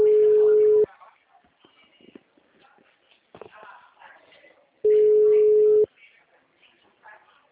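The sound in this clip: A telephone line tone sounds while a call is placed: two steady, low, pure beeps, each about a second long, spaced roughly four seconds apart, with faint rustling and handling noise in the gaps.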